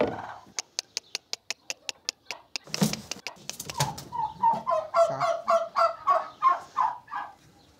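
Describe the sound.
Turkeys at a feeder where they lay their eggs: a quick run of sharp ticks gives way to many repeated tonal calls and clucks, fairly loud and pulsing in a steady rhythm.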